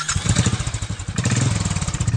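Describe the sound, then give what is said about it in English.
Motorcycle engine revving hard during a women's ride day event in 2018, a loud, rough throbbing of rapid low pulses that dips briefly near the middle before surging again. “The men drank themselves silly and the women revved it hard and scorched the tarmac. It's time to get back to our guests and hit the ignition on the long way home.”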